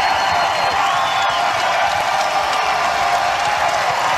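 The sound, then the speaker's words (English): Fans cheer and applaud at a press conference introducing Kevin Durant as number 35 for the Phoenix Suns, a loud, dense and unbroken roar of clapping and shouting that holds steady throughout. “tell me the last time that you saw a press conference introducing a player on a team in the Valley. And the fans cheered for 45 seconds straight.”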